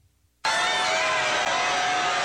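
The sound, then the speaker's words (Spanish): Crowd cheering and applause greet Pope Leo XIV on his visit to Madrid. The sound bursts in suddenly after a brief quiet moment and holds as a loud, dense roar of cheers and clapping until the end. “Madrid contiene el aliento con la visita del Papa León XIV, entre aplausos, cánticos y una multitud que no ha dejado de acompañarlo desde su llegada.”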